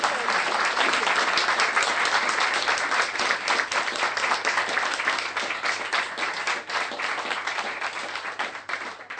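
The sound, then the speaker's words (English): Audience applause for a professor after a science talk at an Oxford SciBar event. Dense, sustained clapping holds steady for about nine seconds and thins slightly toward the end. “I hope you join me in giving Jocelyn a warm round of applause”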